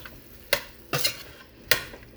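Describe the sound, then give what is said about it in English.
Stirring in a pan of vegetables with salt, crushed red pepper and allspice, sautéing over medium heat: a few sharp scraping clinks of a utensil stand out from a faint, steady background. “Saute all of that together on low heat. Well, medium heat, actually.”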